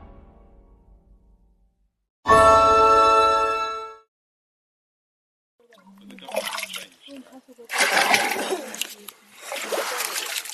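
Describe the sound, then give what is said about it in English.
Water splashing and sloshing as people in Lesotho gather it from a spring near their village. The splashing comes in uneven noisy bursts through the second half, after an earlier sustained tonal sound and a short silence. “What you're hearing are the sounds of people in Lesotho gathering water from a spring not far from their village.”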